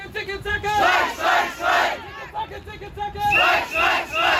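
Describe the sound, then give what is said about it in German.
Striking Charité hospital workers shout together outside the Haus der Statistik, a crowd of raised voices chanting in repeated loud, rhythmic bursts with brief dips between them. “Lautstark werden die Sondierer von Linken, Grünen und SPD vorm Haus der Statistik in Empfang genommen. Von Streikenden der Charité, die den Verhandlern gleich ihre Erwartungen mitgeben”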